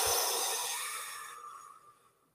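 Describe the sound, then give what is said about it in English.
A deep breath being released: one long, soft, airy exhale that starts fairly full and gradually fades away over a couple of seconds. “So just take in a nice big deep breath and release.”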